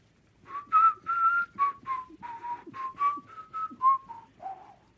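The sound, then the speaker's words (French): A snowman character whistles a tune as he walks away: a clear, bright melody of many short notes in a steady rhythm, dipping to lower notes at the close, with no talk. “Le bonhomme de neige leur dit au revoir et s'éloigne en sifflant.”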